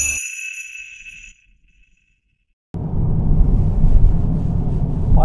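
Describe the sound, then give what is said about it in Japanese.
Car interior noise while driving comes in as a steady low road rumble and hiss, following a short tonal sound and a silent gap. “今日運転しながら収録してますが”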